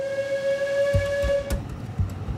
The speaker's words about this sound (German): Eine Diesellok ist nun vorne und zieht den Zug auf dem darüberliegenden Gleis bergauf.